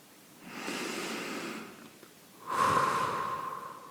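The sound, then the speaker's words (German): A person takes one deep breath: a long, airy inhale, a short pause, then a stronger, steady exhale with a faint whistling edge. “Und dann atme zum Abschluss noch einmal tief ein und aus.”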